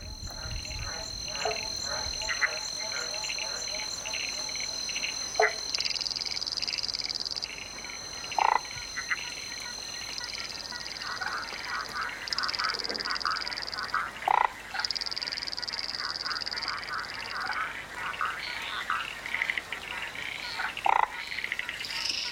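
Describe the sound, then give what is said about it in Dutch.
Australian frogs croak in a dense, continuous chorus of rapid, high-pitched trilling calls. Occasional louder chirps and clicks stand out against a steady background hum of insects. “Gaan we gewoon door met onze kikkers, jongens? Ja, laat maar doen, hè. Kom maar op met die kikkers.”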